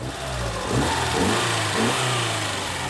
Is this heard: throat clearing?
no